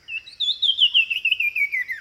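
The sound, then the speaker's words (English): A Sumichrast's wren, a small sooty-brown songbird of southern Mexico's tropical forests, sings one rapid, high, warbling phrase that ends a little lower in pitch, with no other sound around it. “The sumacrest wren is a sooty brown bird about the size of a sparrow.”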